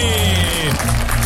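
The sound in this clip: Audience applause for the band Tangerine, dense clapping with a gliding tone sliding downward partway through, then the applause carries on.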